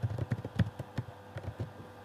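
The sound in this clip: Typing on a computer keyboard, with many quick, light keystroke clicks in an uneven rhythm that are louder at the start and fainter later.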